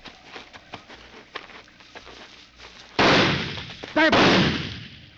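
Gunshots during a hunt in tall grass: soft rustling patter, then two loud, sharp blasts about a second apart, each trailing into a rumbling decay.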